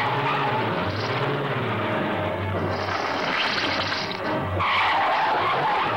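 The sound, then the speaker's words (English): Rear tire spinning against a rock while a car engine is revved hard: a steady, loud, hissing skid roar with a low engine drone underneath, continuous from start to end. “When Bill guns the engine, the rear tire smokes as it spins uselessly against the rock”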